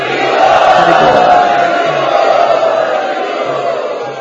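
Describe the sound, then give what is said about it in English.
A crowd loudly chanting in unison to welcome first-time students at a gathering, a dense, continuous wall of many voices sustained at a steady, strong level throughout. “let us welcome all of these students who have come for the first time by very loudly chanting.”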